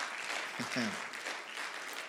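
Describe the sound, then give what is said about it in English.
Church audience clapping their hands during a Christian sermon, a dense, even wash of applause that lasts throughout, with a brief voice rising over it early on. “I think it's a good place to clap your hands.”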